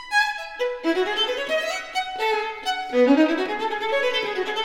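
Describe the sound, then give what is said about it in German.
Solo violin playing a melodic phrase, bright bowed tones with sliding, gliding notes and several swells in loudness, heard alone without voices. “Es war nicht die Geige, die klingt nämlich so.”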